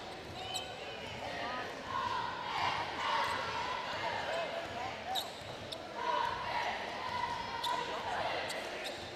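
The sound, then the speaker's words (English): Basketball dribbled between the legs during a high school boys' game, a run of sharp, hollow bounces at an uneven rhythm under continuous crowd murmur and a voice talking. “Between the legs dribble”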